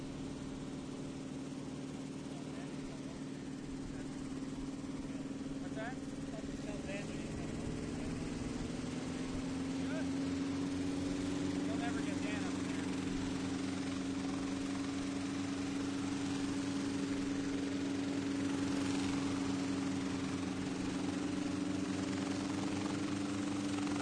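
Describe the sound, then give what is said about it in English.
A small aircraft engine drones steadily at an airport on a hot summer day. The even, buzzing hum runs throughout, its tone rising slightly partway through and then holding. “Let's talk about this with a little of the sound of the Flying W Airport that day.”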